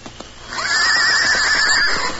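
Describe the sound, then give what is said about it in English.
A saddled horse at a camp neighs once, loudly. The whinny rises sharply and then holds as a shrill, quavering call for well over a second. “In far-off California, in a secluded camp near the city of San Francisco, the Lone Ranger and Tonto saddled their horses and prepared to ride.”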